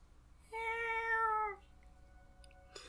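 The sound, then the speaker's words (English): A cat gives a single clear meow, about a second long, with a steady, tonal pitch that fades out, followed by a faint click. “The fucking cat.”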